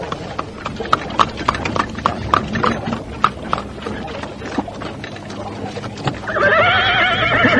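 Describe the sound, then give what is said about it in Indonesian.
Hooves clip-clop in a quick, steady rhythm as riders on horseback escort a carriage along a road. Near the end a horse lets out a loud, wavering neigh over the hoofbeats. “mendadak dari ujung jalan muncul sebuah kereta yang dikawal 10 orang penunggang kuda.”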